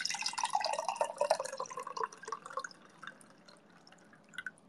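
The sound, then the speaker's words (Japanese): Water spilling while tea is being made: a splashing trickle that is loudest at first, then thins into scattered, faint drips. “あ、やべ、こぼれちゃった。”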